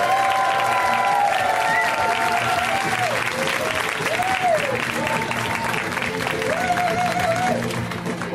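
A comedy club audience gives an enthusiastic welcome to a comedian making his first appearance on the show, with loud, sustained clapping and cheering that runs unbroken for over eight seconds.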